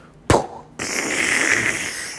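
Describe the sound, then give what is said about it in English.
A voice imitates fireworks that crackle as they fall to the ground: one sharp burst, a brief pause, then a long, steady hissing crackle held to the end. “If you want to impress a Matty J with a firework, do the ones that crackle as they fall to the ground,”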